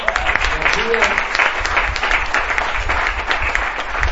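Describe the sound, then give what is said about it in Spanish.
An audience at a church service breaks into dense, sustained applause to welcome guests. The clapping stays loud and steady from start to finish. “quiero dar una fuerte bienvenida con un aplauso a nuestro hermano Mauricio y Nora.”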